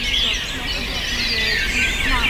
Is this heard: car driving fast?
no